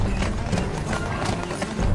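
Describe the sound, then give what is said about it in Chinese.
Quick clip-clop of horse hooves as a horse-drawn carriage arrives at speed into the inner courtyard of a heavily guarded court compound, with many rapid, moderately loud hoofbeats over a rumbling background. “一辆马车快速驶进大理寺。大理寺内外戒备森严，马车在中庭停了下来”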